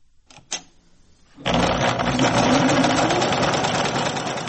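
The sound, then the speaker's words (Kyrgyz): Sewing machine clattering during home tailoring work. A few soft clicks come first, then the machine starts up loud and runs as a fast, continuous, rattling drone to the end. “Үйдөгүлөрү да, өзү да машинканын шакылдаган үнүнө көнүп калышкан.”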